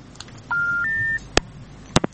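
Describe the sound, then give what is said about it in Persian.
Two-note electronic beep as a caller's telephone line disconnects: one steady tone, then a higher steady tone, followed by a few sharp clicks. “آها قطع شد شنونده ما تماس شد.”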